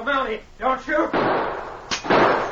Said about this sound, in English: The big man emptied his gun, but the sergeant had ducked under the stairs.